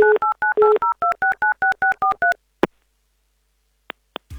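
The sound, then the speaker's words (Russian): A telephone number is dialed on a keypad: a quick, even run of many short two-tone beeps, then a click and two brief faint beeps after a pause. “Сейчас, да, есть у нас связь, и давайте его номер мы прямо сейчас и наберем.”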